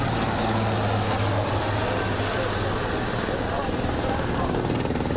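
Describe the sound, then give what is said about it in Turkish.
A helicopter flying during a search and rescue exercise: its rotor and engine make a continuous, loud, dense roar with a fast throbbing pulse that stays even from start to finish. “Ekipler helikopterlerle kazazedeleri kurtardı.”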